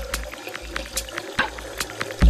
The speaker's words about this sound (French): Avec un robinet ouvert, exactement.